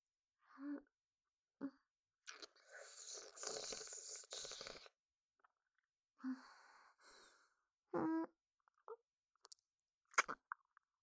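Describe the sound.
Soft, close chewing of a last bite of food: scattered moist mouth clicks and short crunchy bursts separated by silence, with a few breathy exhales, all very faint.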